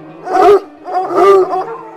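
Big dogs giving deep, drawn-out growling barks: two loud, tonal bursts with a short gap between them, followed by a weaker third sound, with no voices.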